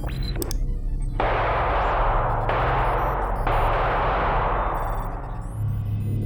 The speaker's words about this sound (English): Shots fired. Suspect is down.